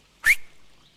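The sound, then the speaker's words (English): A man whistles a short signal to a band of outlaws: one brief, sharp whistle with a quick upward pitch slide, then a faint tail. “a tall, menacing-looking man, whistles, and the outlaws head off, taking the horses with them.”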